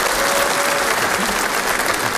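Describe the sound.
Audience applause at a comedy show, a loud, dense and even clatter of many hands that fills the whole stretch without pause.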